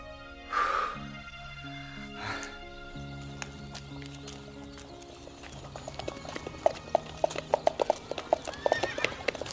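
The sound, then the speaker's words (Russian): Hooves of two black horses drawing a black carriage into a village on a warm, sunny day clip-clop in a quick, steady rhythm that grows louder toward the end, after a whinny near the start. “В поселок заезжает черная карета, запряженная двумя вороными лошадьми.”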